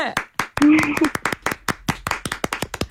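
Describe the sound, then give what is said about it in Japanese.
Brisk hand clapping with many sharp claps in quick succession, and a person speaks over the early part of the clapping. “この拍手の音。 めっちゃ聞こえます。”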